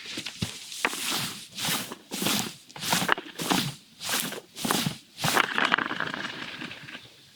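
A wallpaper roller is rolled across a lawn, making a series of rhythmic, evenly spaced swishing strokes of grassy rustle that rise and fade one after another.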